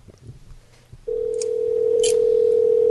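A telephone dial tone sounds while a prank call is placed to a Georgia theater number, starting about a third of the way in after faint background noise and holding as a steady, unbroken tone to the end.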